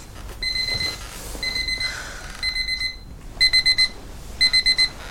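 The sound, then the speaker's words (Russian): An electronic alarm clock rings in the morning in an apartment, giving shrill, high-pitched beeps. It plays several loud groups of rapid beeps with short pauses between them, and the later groups are clear runs of four. “Звонит будильник.”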